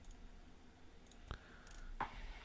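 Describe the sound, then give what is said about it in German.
Dice rolled during a tabletop role-playing game give two faint, sharp clacks about 0.7 seconds apart over a quiet background, with no talking. “ich würfel mal kurz für den Kollegen.”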